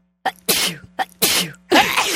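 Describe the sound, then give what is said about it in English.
Sneezing in a radio studio, a rapid-fire run of several loud, explosive bursts in quick succession with short gaps between them, standing alone over a faint steady hum. “It's like a Tommy gun sneeze.”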